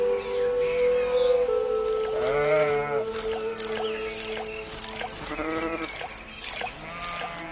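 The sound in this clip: Goats belonging to Umm Khadija bleat, a few quavering, nasal calls of moderate loudness, the clearest and most wavering one near the middle.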